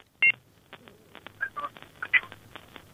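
Touch-tone telephone dialing as a call is placed into a studio phone-in line: a few short, bright beeps at uneven spacing, one sharp tone first and then clustered tones later, over a faint low hum.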